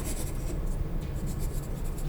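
Pen scratching on a paper registration form, a steady, dry rasping of small strokes, fairly quiet and continuous throughout.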